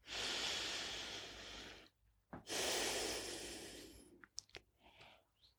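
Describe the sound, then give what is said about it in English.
Deep breathing, with two long, airy breaths separated by a short pause, followed by a few faint clicks and small snuffles. “Exhale deeply. And now take the deepest inhale you have taken all day.”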